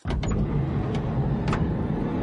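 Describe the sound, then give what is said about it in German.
A car drives along with the steady low rumble of the engine and road noise from inside the vehicle, carrying a local journalist in the morning. The rumble stays even and unbroken. “Der Morgen beginnt für Lokaljournalist Heiko Hesse im Auto.”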